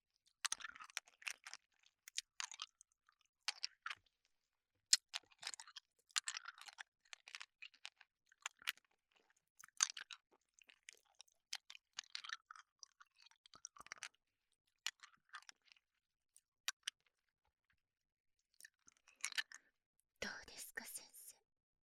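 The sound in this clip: Candy being chewed, with many soft, crunchy clicks and bursts in an irregular rhythm, faint and close, alongside intermittent quiet whispering.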